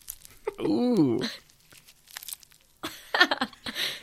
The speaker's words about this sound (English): What's that? The sound of my styro sludge.